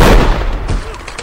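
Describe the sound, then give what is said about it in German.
A gunshot strikes a rock: a loud, heavy blast with a broad rumbling body, followed by a second sharper crack as the sound decays. “Hey, verdammt guter Schuss!”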